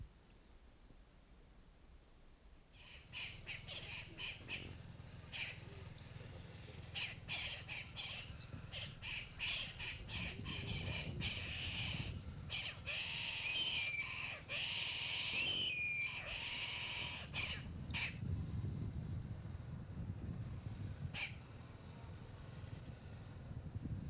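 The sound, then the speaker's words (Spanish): Raucous parrot squawks in the Colombian wild: many harsh, overlapping calls over a steady low rumble, with a few thin whistled notes in the middle. “Escapa y aparecen las loras y una especie de rapaz.”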